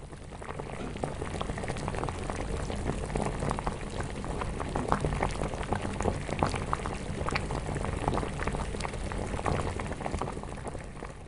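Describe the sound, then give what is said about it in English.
A batch of beer wort boils vigorously during brewing, before the hops go in: a dense, continuous bubbling and churning with a low rumble underneath, steady in level throughout and with no voices. “Then we boil them and we start adding hops. We add hops in different quantities for each batch.”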